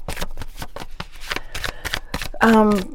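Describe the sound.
Tarot cards are shuffled in many quick, crisp riffles at a steady pace, and a voice sounds briefly near the end.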